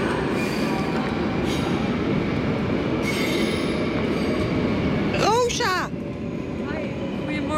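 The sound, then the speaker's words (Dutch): A train to The Hague rumbles and rattles on its rails, steady and fairly loud throughout, with a brief high-pitched wheel squeal just past the middle. “We gaan snel in die trein voordat hij wegrijdt. In de trein.”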